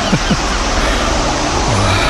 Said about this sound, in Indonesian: Hei, ombak Parangtritis, ombak Parangtritis.